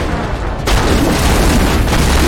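A gunshot fired at a Krogan in a sci-fi video game: one loud, heavy boom strikes after a short stretch of dense noise, then a thick, sustained rumble of noise continues at a high level.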